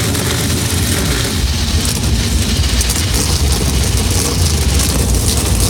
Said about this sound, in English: Drivers, start your engines!